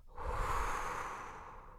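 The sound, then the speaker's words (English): A single long exhale through the mouth during a chest-to-belly breathing exercise: a steady, breathy whoosh that swells quickly and then slowly tapers off, with no voices. “Inhaling through your nose and watching the belly expand, and then exhaling through your mouth on”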